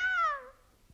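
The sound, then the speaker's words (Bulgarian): A single cat meow, a clear tonal cry that slides downward in pitch and fades within about half a second, heard alone and fairly faint. “Мяу ли? Ти ли, жено, каза мяу?”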